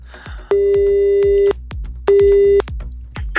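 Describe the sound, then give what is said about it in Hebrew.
A telephone ringback tone sounds while a call is being placed: two steady, even electronic tones, the first about a second long and the second shorter. Quieter clicking fills the gaps around them. “אז החלטנו להתקשר לצ'ונטייה.”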